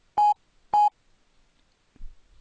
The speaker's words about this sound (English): I'm going to make mine a nice high button sound.